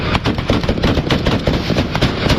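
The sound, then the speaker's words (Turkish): Gunfire from security forces shooting between vehicles in traffic in Mecca: loud, dense, rapid cracking bursts that run together without pause across the whole stretch. “Kaçan suçlunun peşindeki ekipler araçların arasına gerçek mermilerle ateş açtı.”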